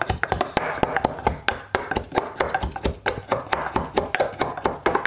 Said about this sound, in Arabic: في واحد بس للثوم، تحط ثومة هون بتصير دق ثوم شوية ملح.